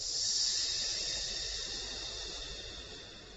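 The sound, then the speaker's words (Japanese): Deep breathing during a relaxation exercise: a soft, steady, airy rush of breath that slowly tapers off, faint and alone. “もう一回吸って吐きます。”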